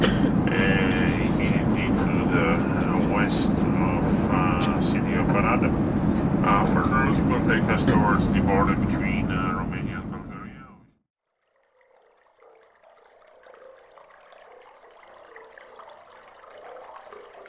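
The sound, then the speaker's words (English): Ambience at Brussels Airport with aircraft: a loud, broad roar fills about the first ten seconds, then stops abruptly and gives way to a much quieter, thinner hum for the rest. “Belgian Anthrophonies, Brussels Airport by Samuel Kajadzi.”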